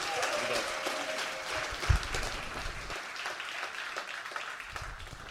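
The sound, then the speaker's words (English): Warm applause from an audience in Austin welcoming a speaker to the stage, a steady dense patter of clapping with voices mixed in, easing off slightly toward the end. “Would you guys give a warm welcome to my friend, Dr. Gabe Bouch.”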